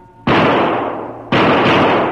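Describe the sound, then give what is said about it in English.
Gunshots fired through a jail cell window: two loud, harsh blasts, each with a long rumbling tail, the second about a second after the first. “He fired.”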